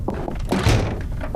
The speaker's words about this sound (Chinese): 师傅，把门关上。